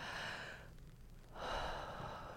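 A deep breath: a soft, airy inhale, a brief pause, then a longer and slightly stronger exhale, heard alone with no talk.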